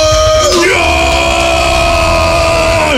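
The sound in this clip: Crowd cheering and yelling for a metal band at a live show: a loud, sustained roar of whoops and shouts that holds steady for about three seconds before tailing off at the end.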